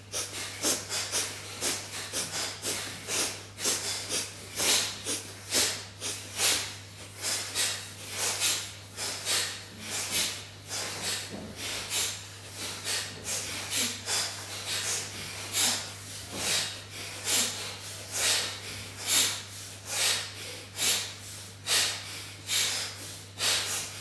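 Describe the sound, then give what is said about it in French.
Alternate-nostril breathing with rapid, repeated nasal exhales, each a soft breathy puff. They form a steady rhythm over a constant low hum. “N'hésitez pas à pratiquer en fermant une narine puis l'autre sur l'expire.”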